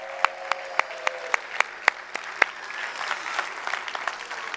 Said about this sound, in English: Let's give all the children a hand.